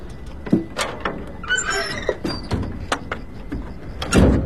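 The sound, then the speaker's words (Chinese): A sliding door runs along its track and shuts, with a high squeal among several sharp knocks and thumps, ending in a heavier bump. No one speaks. “门咋关上了呢？”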